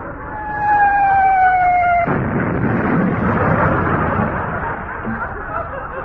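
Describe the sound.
A naval shell from the home fleet explodes. A slightly falling whistling tone comes first, then a sudden loud blast roars on as a long, dense rumble that slowly fades.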